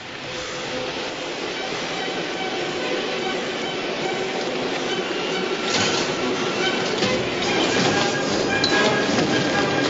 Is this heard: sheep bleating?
no

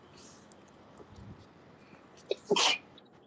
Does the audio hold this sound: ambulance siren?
no

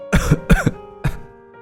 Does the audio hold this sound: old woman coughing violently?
yes

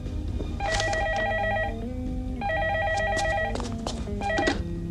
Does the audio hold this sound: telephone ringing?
yes

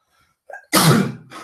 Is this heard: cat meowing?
no

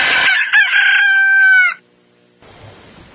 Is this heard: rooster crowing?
yes

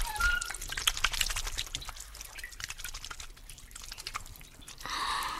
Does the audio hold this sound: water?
yes

